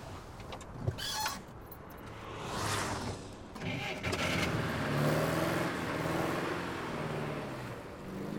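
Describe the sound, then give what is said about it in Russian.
Engine of a black Volga car reversing onto a snowy road through forest, then driving forward: a steady low motor hum with rushing tyre noise on snow and a sharp click early on. “Черная «Волга» выезжает на дорогу задним ходом, останавливается, едет вперед. Автомобиль едет по заснеженной дороге,”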